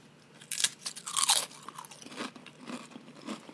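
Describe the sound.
Loud, crisp crunching of ketchup-flavoured potato chips being chewed. A burst of sharp bites comes first, then many softer, uneven crunches continue. No one talks.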